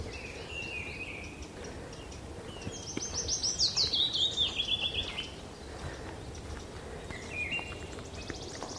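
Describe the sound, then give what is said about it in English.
A wood warbler sings a shimmering trill that speeds up and slides slightly downward, loud against a faint hiss. A few thin, high chirps come before and after it. “Ah, there's a wood warbler.”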